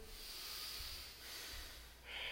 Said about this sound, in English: Let's go 10 more breaths.